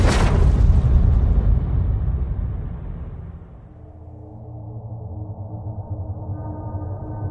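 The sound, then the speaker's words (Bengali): A dynamite explosion bursts out in a single heavy boom, then rolls into a long low rumble that slowly fades, leaving a steady low drone underneath. “ডায়নামাইটে প্রবল বিস্ফোরণের শব্দ হলো”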